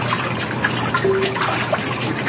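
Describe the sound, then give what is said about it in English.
Water trickles and drips as it drains out of a freshly formed wet sheet of handmade paper. The watery patter is soft and continuous, with small scattered drips. “So here's the piece of paper, and we have to let the water drain out of the sheet.”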